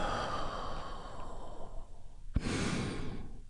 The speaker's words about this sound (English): You do that by taking a great big healing breath right now. Here we go. And release.